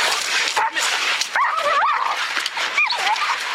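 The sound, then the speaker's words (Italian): High, wavering yelps and whimpers from dogs locked in a dog fight, a few sharp pitched cries rising and falling over a dense, continuous noisy scuffle. “Sono dei guaiti che abbiamo raccolto da un video che così mostra un combattimento fra cani.”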